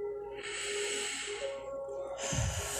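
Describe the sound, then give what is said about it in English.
Slow breathing in through the nose and out through the mouth during a guided breathing exercise: a long airy hiss of inhalation, a pause, then a soft breathy exhale over quiet sustained musical tones. “In through the nose, out through the mouth.”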